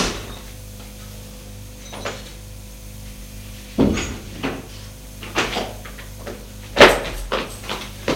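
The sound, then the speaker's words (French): A door is kicked open: a few sharp knocks and heavy bumps, the loudest two well apart, over a low, steady hum. “D'un coup de pied, il arrive à ouvrir la porte.”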